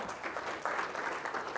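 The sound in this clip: Conference audience applause welcoming a speaker: a brief, even patter of clapping at a moderate, fairly soft level.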